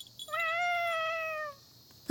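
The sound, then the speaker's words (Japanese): A cat that has wandered into a house gives one long, steady, high meow lasting over a second. After a short pause a brief, sharp cry is cut off at the end. “猫？どこから入ってきたのかしら。”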